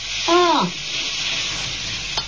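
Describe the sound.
Food sizzles steadily in a pan in a kitchen as it is stirred, a continuous bright hiss. A brief voice sounds near the start and a sharp clink comes near the end.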